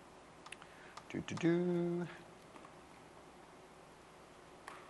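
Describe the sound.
Someone types on a computer keyboard, producing a few sparse, sharp clicks before and after a short burst of speech, with light ticking keystrokes scattered over a faint background hiss.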